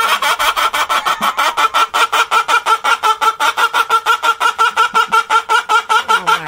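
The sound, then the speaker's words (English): Chicken clucking that sounds like laughter: a fast, even run of many short, bright clucks repeating steadily throughout, loud and alone with no voices. “The chicken laughing. I knew it was a chicken laughing, because if you go on the internet, that's the most popular thing.”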